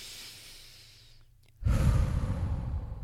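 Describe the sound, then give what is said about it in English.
A deep breath in and out: a soft, breathy intake, a short hush, then a louder, rushing exhale that carries on steadily to the end, with no talking. “So, I want you to take a deep breath in and out.”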